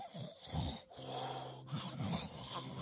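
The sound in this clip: A voice imitates snoring with a few rough, breathy rasping snorts and exhalations, fairly faint and without any spoken words.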